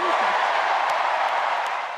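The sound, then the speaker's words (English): A crowd at the Democratic National Convention in Chicago applauds former First Lady Michelle Obama, a dense, steady wash of clapping that holds at an even level for the whole stretch. “Huge applause for former First Lady Michelle Obama at the Democratic National Convention here in Chicago.”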